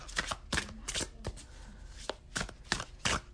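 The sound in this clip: A deck of tarot cards being shuffled, with many quick crisp riffles and soft slaps in an uneven rhythm, faint and without talk.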